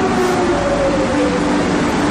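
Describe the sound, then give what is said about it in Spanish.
A metro train ride in Madrid: a steady, loud rolling roar from the carriage with thin, sustained high whining tones over it, unbroken throughout. “Trayecto de metro en Madrid.”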